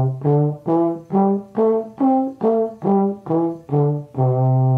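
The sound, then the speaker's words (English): A C pentatonic scale played as a run of evenly spaced, sustained notes on a pitched instrument. The notes climb step by step, then come back down, and the last note is held longer. “I'm sure if I said play the C pentatonic scale, you could do it. It would sound like this.”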